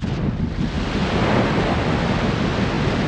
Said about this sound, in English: A couple seconds pass. You hear a massive splash